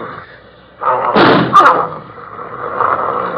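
A single loud gunshot is fired at a beast: one sharp, booming blast that rings on briefly before fading into quieter background noise.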